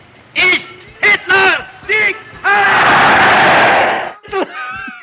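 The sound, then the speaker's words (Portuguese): Shouted voices and crowd-like roaring make up the Nerdcast sound bumper: several short, loud yells come first, then a long, dense roar of many voices, which ends in more brief shouts. “A vírgula sonora do Nerdcast, cara!”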